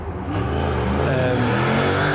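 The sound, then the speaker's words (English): A motorbike engine revving: a loud, continuous, buzzing engine drone that holds strongly for the whole brief moment. “Some guy's going off his motorbike.”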